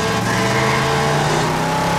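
Car engine revving hard as the vehicle tries to overtake on the road, a loud, sustained drone with strong steady harmonics lasting about two seconds, with no voices.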